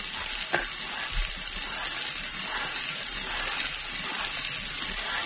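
A lottery drum spins, its balls tumbling in a continuous dense rattle and clatter that stays fairly even throughout, with a couple of slightly sharper knocks near the start and no voices.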